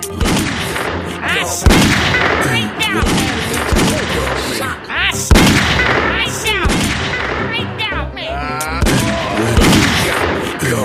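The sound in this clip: Gunfire and heavy booming blasts in a shooting scene, dense and nearly continuous, with voices talking over the noise throughout.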